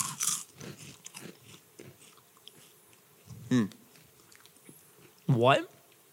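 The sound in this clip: Crisp biting and crunching of a snack. Two loud, crunchy bites stand out over quieter chewing and mouth noises.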